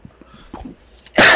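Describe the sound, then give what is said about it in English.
A person coughing after choking: a few faint breathy catches and throat sounds, then one loud, harsh cough burst at the end. “I just choked. Sorry. Oh, excuse me. I just choked.”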